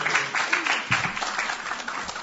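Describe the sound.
Audience applause welcoming a speaker: dense, steady clapping from a crowd that fills the whole stretch without a break.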